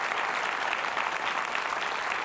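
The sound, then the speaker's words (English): Audience applause, a steady, dense wash of many hands clapping at an even level throughout, with no pauses. “Yeah, you wanted to applaud. Go ahead.”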